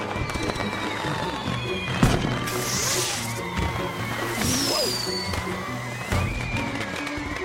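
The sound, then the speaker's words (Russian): Firecrackers, lit and thrown by children, explode with a few sharp, loud bangs spaced several seconds apart. Voices and thin whistling tones run between the blasts. “Дети нашли петарду. Они их поджигают и бросают в сторону.”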